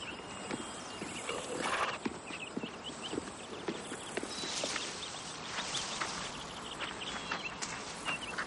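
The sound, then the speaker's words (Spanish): Hoofbeats of a donkey trotting over mountain terrain, with bells hanging from its saddle; a steady, fairly faint clip-clop runs throughout with no voices. “va montado sobre un burro de cuya montura cuelgan unos cascabeles y trota por un terreno entre montañas”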